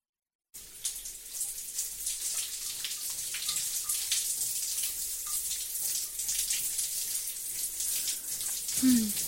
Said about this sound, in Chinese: 先洗个澡睡觉吧。